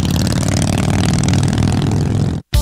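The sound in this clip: A custom-built, custom-painted motorcycle loaded with aftermarket parts revs hard. The loud, rough engine roar is steady and clattering, then cuts out abruptly for a split second near the end before roaring back.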